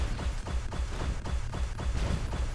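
Rapid, regular shots from an enemy ship firing small blue bullets in a video game arena mode, many quick bursts in an even pulse, fairly quiet and without voices.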